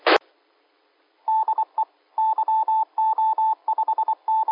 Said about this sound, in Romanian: Fac un apel către o stație de pe Rolling.